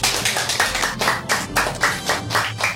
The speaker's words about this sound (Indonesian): para dayang bertepuk tangan memuji